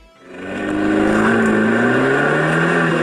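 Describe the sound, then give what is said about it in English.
A Fiat 500C car engine revs up hard, its loud harmonic drone swelling within the first second and then holding steady while its pitch climbs gradually. “And here's the sound of Fiat 500C.”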